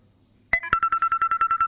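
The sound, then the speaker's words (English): A walkie-talkie gives off its electronic signal tone: a brief chirp of two notes, then a quick, evenly spaced train of short mid-pitched beeps, loud and clean against near silence. “I bought some walkie-talkies, so there you go.”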